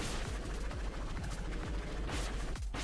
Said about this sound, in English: She just shot projectiles out of her head, which doesn't seem to expose her to attack when she does that